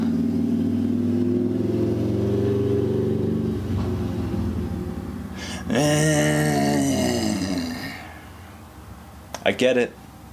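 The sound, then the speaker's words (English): A car engine revving: a steady low rumble, then a louder, harsher surge that fades away, and a short sharp burst near the end. “Why do you have to rev your shit?”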